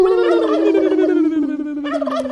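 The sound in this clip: A turkey gobbles in a loud, sustained, warbling call whose tone glides slowly downward, ending in a brief rattling flutter.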